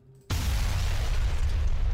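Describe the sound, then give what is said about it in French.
A huge explosion shakes a building: after a brief quiet hum, a sudden loud blast breaks in and carries on as a sustained, deep roaring rumble that stays strong to the end. “une gigantesque explosion ébranle le bâtiment, commence à se déclencher une sirène.”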